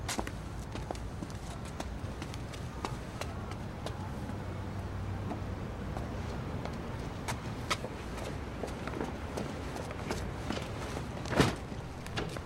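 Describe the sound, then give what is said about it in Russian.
Footsteps of a man walking out of a house carrying a bag in a film scene: many steady, hard steps over low background noise, with one louder knock near the end. “Папо с сумкой выходит из дома и подходит к девушке.”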